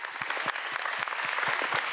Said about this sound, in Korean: 그럼에도 온몸을 불살라 주신 우리 세안전통연희당 큰 박수 한번 부탁드리겠습니다.